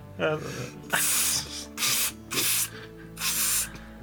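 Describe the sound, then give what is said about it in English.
Butter sprays from an aerosol spray-butter can into a hand in four short, hissing bursts with pauses between them, after a brief gasp-like vocal sound at the start. “It's like the spray on kind. No. So I push the top of it and just sprays butter in your hand.”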